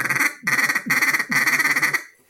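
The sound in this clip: A duck call blown to imitate a duck's quack: four loud, nasal, raspy quacks in a steady rhythm, the last one drawn out longer before it stops.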